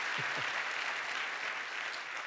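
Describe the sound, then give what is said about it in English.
An audience claps together during a church sermon, a full, even roll of many hands that stays strong from start to finish. “So if we're going to clap, can we do it right, please? Can we all clap?”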